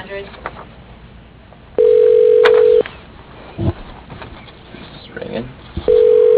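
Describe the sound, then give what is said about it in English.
A phone call to a paint company rings through on the line with two steady, low, buzzing ringback tones, each about a second long, separated by a pause. Faint background noise sits between them. “I had to do the dial by name. Put his mailbox 405.”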